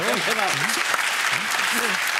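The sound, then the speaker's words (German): Studio audience applause on a television show, a sustained bed of clapping with a man's voice talking over it throughout. “Guck mal, der Applaus spricht für sich.”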